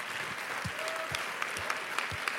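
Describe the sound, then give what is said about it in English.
A church audience claps hands in sustained, steady applause of moderate loudness, with many overlapping claps and low thumps scattered throughout. “clap your hands once again”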